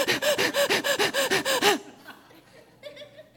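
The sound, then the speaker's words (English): Many rapid, deep breaths come in quick succession, loud and evenly spaced like a fast pumping rhythm. They give way to fainter, quieter breathing. “I got to get my 20,000 breaths in, and I'm really busy later, so I'm just going to get it all in now.”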